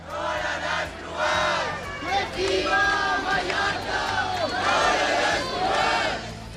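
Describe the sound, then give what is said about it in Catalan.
A loud crowd chants and shouts at a Sunday evening protest against mass tourism in central Palma, Mallorca. Many voices rise and fall together in rhythmic, surging waves. “I aquest que sentiu és l'ambient que hi havia aquest diumenge a hora baixa al centre de Palma durant la manifestació contra la massificació turística i sota el lema Mallorca al límit.”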